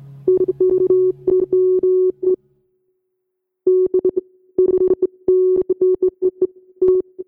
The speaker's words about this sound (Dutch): heb de versnelde ballonopname weer wat vertraagd en respectievelijk door een hoog doorlaatfilter, een gate en een envelope follower gehaald. Dat klinkt dan zo.